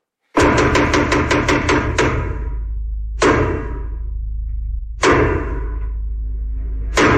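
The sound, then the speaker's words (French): Traditional French theatre knocks announce the start of a play: a fast run of heavy wooden thuds, then three loud, slow, evenly spaced blows, each ringing with a deep booming resonance. “Bon, les 12 coups de théâtre ont sonné.”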